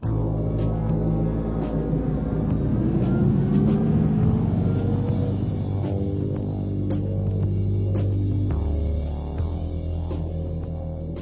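A car drives away, its engine giving a steady, loud, low droning rumble that holds for several seconds before dipping slightly near the end.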